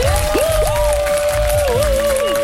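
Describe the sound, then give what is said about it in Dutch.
Encouraging applause for a quiz contestant, a steady, dense wash of clapping held at an even level throughout, with gliding whistle-like tones sounding over it. “Je krijgt van ons een bemoedigend applaus.”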